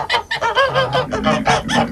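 Cackling, honking fowl calls in a rapid, uneven series of loud bursts, heard on their own on a rural farm garden in the early morning, with a rooster stated to be present.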